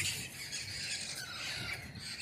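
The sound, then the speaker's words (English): Hungry baby birds squawking in the morning, a faint, continuous high-pitched chatter of overlapping harsh calls. “the little baby birds are hungry, I suppose. Are they just very talkative this morning?”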